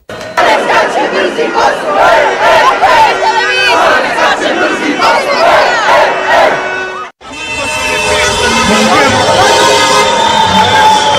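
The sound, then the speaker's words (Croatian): Loud crowd chanting and cheering from football fans celebrating a national-team win in the streets of Bosnia and Herzegovina's capital. The dense, continuous roar drops out abruptly for a moment, then resumes with steady tonal notes running through it. “Duge povorke vozila, sirene, vatrometi, ali i navijačke pjesme odjekivale su ulicama glavnog grada.”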